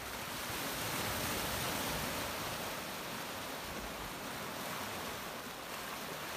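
Ocean waves make a loud, steady rushing roar, an unbroken wash of surf noise that holds an even level throughout, with no voices.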